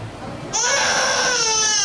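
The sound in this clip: An electronic baby simulator doll gives a crying sound: a steady, high, sustained infant wail that starts abruptly and continues loudly to the end.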